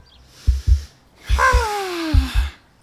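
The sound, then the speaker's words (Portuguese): Deep breathing taken to calm down: two quick intakes of air, then a long voiced exhale that slides down in pitch like a sigh, and two more short breaths at the end. “que tal respirar fundo com eles?”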